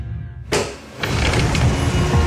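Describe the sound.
Someone getting into a car: a sharp car-door clunk, then a fuller burst of shuffling and rumbling movement that continues to the end.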